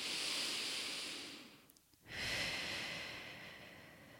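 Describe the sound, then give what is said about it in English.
A deep breath, heard as two long, airy whooshes split by a brief quiet gap, soft and breathy with no voices. “deep breath”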